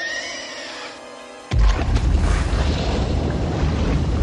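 A grenade launcher explosion in a video game bursts in suddenly after a quieter tonal stretch, then rolls on as a loud, dense rumble until the end.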